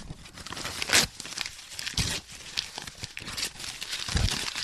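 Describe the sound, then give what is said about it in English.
Plastic wrap crinkles and tears as someone unwraps a cassette tape, coming in several sharp, uneven bursts of rustling. “Oh, okay. Well, let me unwrap it, I guess.”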